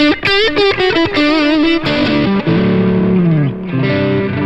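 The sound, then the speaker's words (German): High-gain distorted electric guitar lead sound, boosted about 4 dB, with sustained singing notes that bend and waver with vibrato. Quick picked notes open the phrase before it slides into longer gliding tones. “dann habe ich die Crunch und High-Gain-Sounds immer nochmal als Lead-Sounds”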